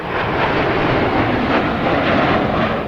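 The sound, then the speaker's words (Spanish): An airplane flying high in the sky gives a steady, broad roar with an even rumbling texture that holds constant throughout, with no voices. “Al rato, vio un avión en lo alto del cielo”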